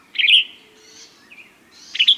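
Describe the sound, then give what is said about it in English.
Yellow-rumped warblers and western tanagers call in flowering treetops in Mexico. Bright, high chirps come in a burst at the start and another at the end, with thinner calls between. “The tops of flowering trees are busy with yellow-rumped warblers and western tanagers, northern nesters that winter in Mexico.”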